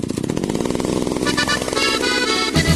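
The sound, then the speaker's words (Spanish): A chainsaw engine runs in an advertisement for a chainsaw and garden-equipment dealer. It makes a loud, continuous, raspy buzz that revs and wavers in pitch throughout, with no voices over it. “Agrifor es el que más sabe de motosierras en Talca. Motosierras, fumigadoras, cortadora de pasto, servicio técnico y repuestos originales.”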